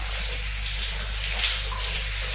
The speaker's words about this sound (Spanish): Me voy a bañar, me voy a bañar. Ah, qué lindo, bañarse con agua calentita.